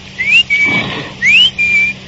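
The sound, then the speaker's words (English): A person whistles in imitation of a clock's bird: two pairs of clear, high notes, each a short rising whistle followed by a steady held one. The whistling is heard alone, with no talk. “My father had a clock that told the time with a bird jumping out. The bird whistled, like this.”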